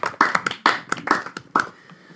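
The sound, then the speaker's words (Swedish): Scattered hand claps from a small group applauding a friend, a few sharp, irregular claps that thin out and fade toward the end. “Ska han ha? Applåd.”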